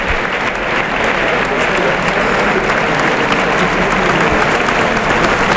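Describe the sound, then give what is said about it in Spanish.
A bullfight crowd gives a loud ovation in the bullring for a matador after his faena, despite two warnings. The clapping is dense and sustained at a steady, loud level throughout, with a commentator's voice talking over it. “el público ha reconocido el esfuerzo. El esfuerzo. Pese a los dos avisos, va a tener que saludar una fuerte ovación desde el tercio, Alejandro Talavante.”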